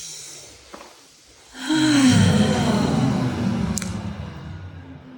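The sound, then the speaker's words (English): A group of people take a deep breath together: a long, breathy rush of air that swells in and holds for a few seconds, then slowly eases off, with no talk. “So everyone take a deep breath.”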